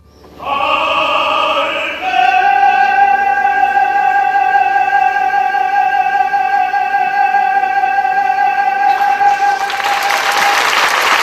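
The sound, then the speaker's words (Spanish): Audience applause at the end of a song: a long, sustained musical note rings on its own, and a burst of clapping rises beneath it during the final seconds. “Los aplausos ya es el final, ¿no? No, no, no, la gente aplaude cuando acaban las canciones.”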